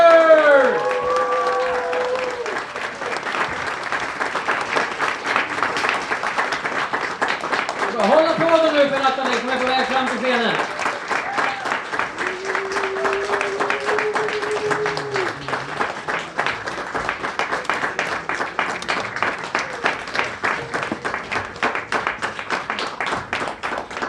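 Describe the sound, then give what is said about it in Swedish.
An audience cheers and applauds as a contestant walks onto the stage at a live event. Whoops and shouts ride over thick clapping early on, and the applause later settles into steady clapping in unison. “Och återigen, med ett jubel som får taket att lyfta, vill jag att vi hälsar vår nästa deltagare välkommen upp på scen”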